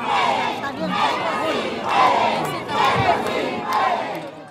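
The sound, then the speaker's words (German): A crowd cheers and shouts at a presidential campaign rally in Peru, a loud mass of voices swelling and easing in rhythmic waves about once a second, like chanting. “Die Menge jubelt, es ist ein Heimspiel für Keiko.”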